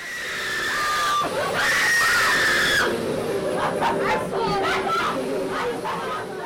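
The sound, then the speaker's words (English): Screams from inside a haunted house attraction on Broadway in Manhattan: high shrieks and squeals ring out over steady crowd chatter, loud and continuous. “That's the sound of screaming coming from inside Blood Manor, a thrilling haunted house in Manhattan.”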